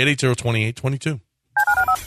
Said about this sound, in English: Dial the phone.